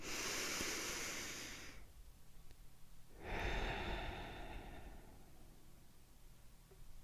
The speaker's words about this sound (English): Let's take our traditional deep breath in and deep breath out.